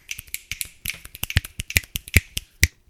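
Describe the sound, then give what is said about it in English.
A group gives a round of finger snaps: many sharp, dry clicks in an irregular, overlapping patter, with a few louder snaps standing out before the sound thins out at the end. “Hey, everybody, a round of snaps.”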